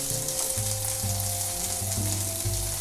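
Food browning in a pan while left untouched, giving a steady, loud sizzle of frying with dense crackling and a low, rumbling layer beneath it.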